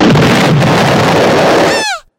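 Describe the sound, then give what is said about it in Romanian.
A shot strikes and disintegrates a statue: a loud, roaring blast sustained for nearly two seconds, ending in a few quick falling whistling tones before cutting to silence. No voices are heard. “A tras în statuie, a dezintegrat-o”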